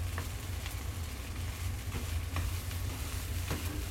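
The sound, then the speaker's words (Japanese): Onions sizzle as they are stir-fried in a pan for hashed beef rice: a faint, steady hiss with soft crackles and a low hum running underneath, and no voices. “で、そのハヤシライスを作るための玉ねぎを今めちゃめちゃ炒めてる。”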